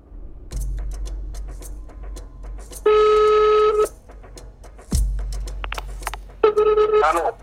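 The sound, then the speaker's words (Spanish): A telephone redials after a dropped call: a low steady line hum is broken by two sustained electronic tones, one near the middle and one at the end, each lasting about a second. “Aquí la llamada se corta. Así que lo vuelvo a llamar.”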